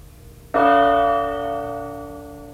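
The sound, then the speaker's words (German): A single gong stroke rings out as a radio time signal marking the hour, struck once with a sharp onset and then a bright, sustained metallic tone that slowly decays with no other sound. “Die genaue Zeit? Mit dem Gongschlag ist es 17 Uhr.”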